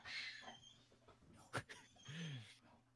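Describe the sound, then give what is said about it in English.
A dog freaking out: a sharp yelp-like burst midway, followed by a short whining cry, all faint over a steady low hum. “dog's having a freak out moment. Happens. Animals behave in ways that are not understandable.”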